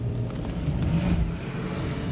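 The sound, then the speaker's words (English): Car driving down a city street through roadworks lined with orange cones, a steady low rumble of road and engine noise, continuous and even throughout with no voices. “Driving down this street, both sides of the road lined with orange cones”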